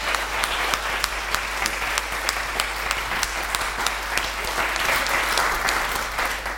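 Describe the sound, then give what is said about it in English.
A church audience applauds, many hands clapping together in a full, steady round with a regular pulse of sharper claps running through it. “Let's put our hands together again.”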